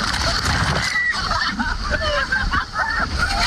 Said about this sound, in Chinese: 一个大浪打过来，浪退后，拍摄者才发现身后发生了意外